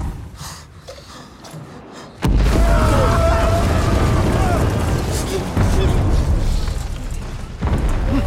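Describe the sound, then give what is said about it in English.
A sudden heavy boom as a bomb strikes a bunker in a war film, then a loud, sustained low rumble as the bunker collapses, surging again near the end; quieter sound with faint voices comes before the blast. “There's a bomb attack on a bunker, and the bunker collapses.”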